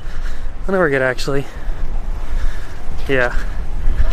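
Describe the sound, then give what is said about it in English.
Strong wind blowing outdoors up high, buffeting the microphone as a steady, loud roar that fills the whole clip, with someone talking briefly over it. “It's getting kind of windy up here. We're gonna see how this goes. Oh, I didn't know it was this windy.”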